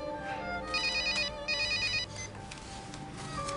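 A telephone ringtone sounds as a parent urges a son to answer: two bright electronic ringing bursts with a warbling tone, heard over a steady low background hum and no talk.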